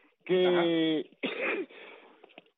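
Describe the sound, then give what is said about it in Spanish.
Throat clearing and a cough from a person with a cold: a loud, drawn-out voiced rasp, then after a short gap a harsher, breathy burst, with a faint rough tail trailing off. “disculpe por la tos, que tengo el catarrito que me quiere coger”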